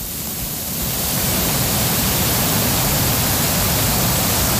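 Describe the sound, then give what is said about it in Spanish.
A swollen mountain stream rushing in a flash flood makes a dense, hissing roar of water. It swells in loudness over the first second, then holds steady and powerful, with no talk. “Ese incremento del sonido es la cantidad de agua que va llegando, ¿no? Va aumentando”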